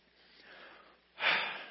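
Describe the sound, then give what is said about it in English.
An audience takes a deep breath together, a faint, soft inhale followed by a louder, rushing exhale of breath noise. “You just used your lungs. You just inhaled and exhaled, right?”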